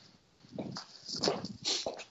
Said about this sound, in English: Are you walking to the ice machine? Yeah, sorry. I'm walking around the office. There's no one here. Clomp. It's our new wood floors we have in the entryway.